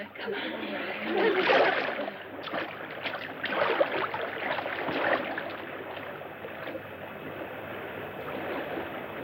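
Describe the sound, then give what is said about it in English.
Hands paddling in water as a boat drifts toward land: irregular sloshing and splashing strokes, swelling in a few louder bursts and then settling into softer, continuous water movement. “There's land. Help me paddle. We've got to make it. Paddle with your hands.”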